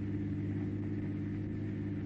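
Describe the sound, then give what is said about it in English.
A car is driven along a road, giving a steady, low engine rumble and drone that holds at an even level throughout, with no voices. “Better keep your eye on the road. Yes. It's nice of you to do the driving.”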